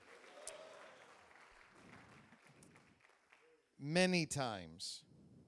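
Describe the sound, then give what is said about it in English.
An audience applauds to welcome a guest speaker at a church gathering. The clapping is a soft, scattered patter that fades away, and then a loud voice calls out in a few short bursts. “put your hands together and welcome him”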